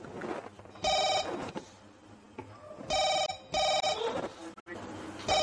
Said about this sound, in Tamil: என்ன ஃபாரின் கால் மாதிரி இருக்கு?